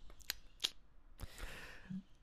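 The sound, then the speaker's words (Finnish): Faint metallic clicks of a Denssi drink can being pried open, a few sharp snaps of the tab spread out over quiet background. “Siellä Denssipurkki yrittää aueta taustaa. Aukes.”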